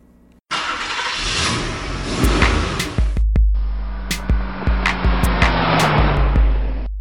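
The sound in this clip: A car engine starts abruptly, then revs up loudly as the vehicle drives off. The pitch climbs, drops briefly and climbs again as it gathers speed, with no talking.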